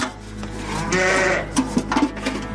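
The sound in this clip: Grey sheep bleating on a farm, several wavering, nasal bleats rising over a steady low hum, with short bleats clustered toward the end.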